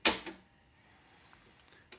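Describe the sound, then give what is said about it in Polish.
A tape recorder's mechanism works as its head and slide move, the reel turns and stop is pressed: a soft mechanical clunk and a second knock, then near-quiet with faint, scattered clicks. “Nacisnę start, uwaga, o, i teraz głowica poszła do góry, sanki poszły do góry, głowica docisnęła do taśmy, rolka zaczęła się obracać, nacisnę stop”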